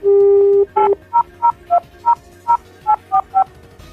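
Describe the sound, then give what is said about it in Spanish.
Telephone keypad tones as a number is dialed: one long steady tone, then a quick, evenly paced run of short beeps at shifting pitches, loud and clear with no talking. “Deadpool decide hacer una llamada a los Vengadores y a la Capitana Marvel.”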